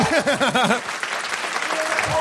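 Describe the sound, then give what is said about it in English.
An audience applauding at a free show: steady, dense clapping follows a brief sung phrase with wavering pitch and continues evenly to the end. “And everyone applauds. I'm here. Now you can applaud.”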